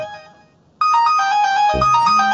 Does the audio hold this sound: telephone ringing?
yes